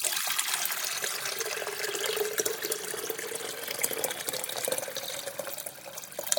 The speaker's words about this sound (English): I've got a kettle here. Need to put some water in that.